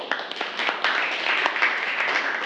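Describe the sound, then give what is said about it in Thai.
A classroom group claps for a student who has just answered a question, with many uneven, sharp hand claps that keep going for the whole clip at a moderate level. “ปรบมือให้กับณสุภาด้วยค่ะ”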